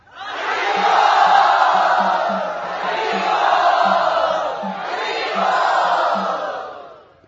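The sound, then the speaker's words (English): Loud crowd cheer welcoming a guest at a Krishna devotional gathering, a roaring mass of shouting voices that surges in three successive swells before cutting off. “Let us very tumultuously welcome him.”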